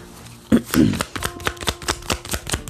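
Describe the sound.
Cards from a deck being shuffled before another card is drawn: a run of many crisp, papery snaps and clicks in an uneven rhythm, fairly loud and heard alone with no talking.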